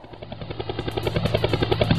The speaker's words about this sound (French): Merde, un hélicoptère!